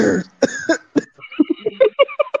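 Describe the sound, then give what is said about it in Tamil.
A person coughing: a harsh burst at the start, then a rapid series of shorter, lighter hacking coughs in close succession. “எதுக்குடா இருமிக்கிட்டு இருக்க?”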